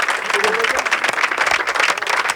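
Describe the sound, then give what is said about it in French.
Audience applause at a live concert: dense, continuous clapping with a crowd murmur and a voice briefly heard over it. “Applaudissements avec vous.”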